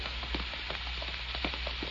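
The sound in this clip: Rain falls at night as a faint, even hiss, with scattered soft drops pattering irregularly throughout.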